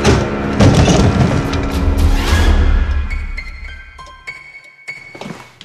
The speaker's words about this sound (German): Im nächsten Moment stürzte eine mächtige hölzerne Statue auf die Stelle nieder, wo der Professor gestanden hatte.